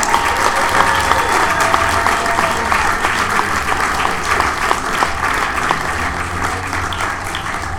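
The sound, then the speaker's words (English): A comedy club audience claps for a comedian taking the stage, producing dense, continuous applause that stays loud and tapers only slightly toward the end. “So come on, make a lot of noise and put your hands together for Mr. Tony Visage, everybody.”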